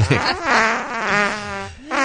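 A fart sound effect, one long, wet, buzzing blast lasting about two seconds, its pitch wobbling up and down throughout, loud with no talk over it.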